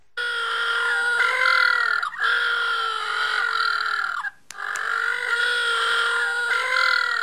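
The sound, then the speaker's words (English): Little blue penguins call in a loud, continuous, harsh braying chorus with wavering, nasal harmonic tones. The calling breaks off briefly twice. No talk is heard. “Now, if you're wondering what that sound is, that is the sound of little blue penguins.”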